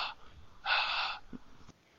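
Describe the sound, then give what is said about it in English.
A person panting to catch their breath: a short breathy gust, then a longer, louder rasping exhale, followed by a few faint clicks and quiet breathing. “That's me catching my breath.”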